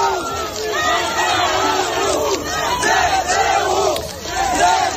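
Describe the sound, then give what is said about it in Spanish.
Ukrainian citizens celebrate the Russian retreat at the Kherson Regional Administration building. A loud crowd shouts and chants in swelling, rhythmic waves of many overlapping voices. “Son ciudadanos ucranianos celebrando en la sede de la Administración Regional de Jersón la retirada rusa.”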